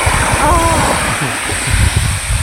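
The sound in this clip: Sea waves at the seashore in Greece wash in a steady, dense roar of surf that runs without pause through the whole clip.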